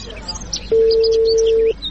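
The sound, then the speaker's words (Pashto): A telephone call rings out as one steady, mid-pitched tone lasting about a second, with faint bird chirps in the background before and after it. “دا دی اوس به زنګ ورشي له خیر سره دا دی ورغی زنګ”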